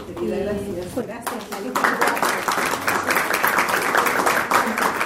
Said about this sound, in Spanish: Dicen que los aplausos son las sonrisas del alma, así que empezamos bien.